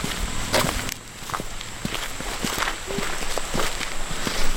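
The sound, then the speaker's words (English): Footsteps walk along a popular mountain trail near a park headquarters, on the way to Cataract Falls. Steady, even steps crunch at a moderate pace, fairly quiet, with no talking. “We'll walk into one of our little popular trails here because it's right by the headquarters.”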